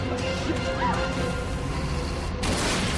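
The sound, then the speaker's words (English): An armored truck smashes into a line of parked vehicles and rolls over, a loud, continuous crashing and grinding of metal that surges again with a fresh burst near the end. “She crashes into a line of parked vehicles, rolling the truck.”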